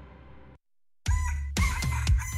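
Egg-laying hens cluck and a rooster crows, loud and strongly tonal, after a short quiet gap, filling the last second and a half.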